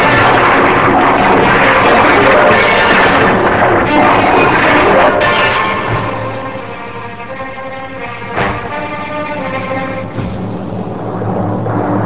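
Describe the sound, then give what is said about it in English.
Starship phasers firing into a cloud mass: a loud, sustained roaring discharge that stays dense for about five seconds, then drops to a lower, rougher rumble with a few brief surges. “Prepare to fire all phasers into cloud mass. Locked on. Phasers ready, sir. Fire. Firing.”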